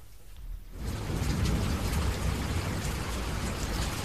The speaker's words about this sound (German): Das ist der Regen. Am Anfang habe ich einen Regen gemacht. Im Tunnel? Nein, das hat mit dem Tunnel nichts, es ist nur Regen.